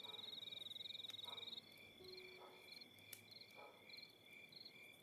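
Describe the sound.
Crickets chirping on a warm night: a fast, high trill for the first second and a half, then short repeating bursts of chirps over a steady insect hum, with a few lower croak-like calls mixed in.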